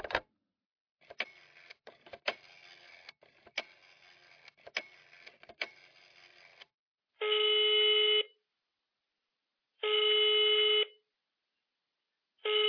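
A telephone being dialed to make a call: a long run of sharp, irregular clicks, then three long, steady electronic tones separated by pauses of silence.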